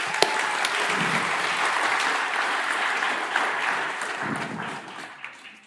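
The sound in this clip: Steady audience applause welcomes a speaker up to the front. The clapping is broad and even, then fades out near the end.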